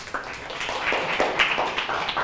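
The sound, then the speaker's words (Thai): Students in a classroom applaud the group that presented and the classmate who answered in a maths lesson on map scale. Many overlapping claps form a steady, moderately loud patter. “ปรบมือให้ทั้งกลุ่มที่นำเสนอและผู้ตอบด้วยนะครับ”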